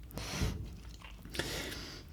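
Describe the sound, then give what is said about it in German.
Someone chews nuts, with a few faint, crunchy bites and soft mastication sounds and no talking. “ich esse hier nebenher ganz leckere Nüsse, die hier noch hier bereitstehen”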